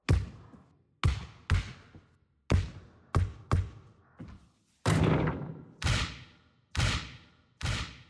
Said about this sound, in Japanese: 悪くないですが、ドリブルするときにボールが弾みすぎて掴みにくかったですよね。